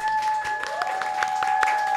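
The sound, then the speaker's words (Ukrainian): Audience applause thanking the venue, a house of culture: scattered, fairly faint claps over a steady, high electronic tone. “Е, насамперед, ми хочемо подякувати чарівному закладу, в якому ми знаходимося. Це ДК назва. Е, оплески ваші їм.”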